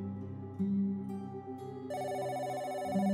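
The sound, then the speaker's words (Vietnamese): A telephone ringtone plays as a steady, melodic electronic pattern of sustained tones that shift in pitch partway through, heard alone at a moderately low level. “Bỗng nhiên tiếng chuông điện thoại vang lên, làm cho gã giật cả mình.”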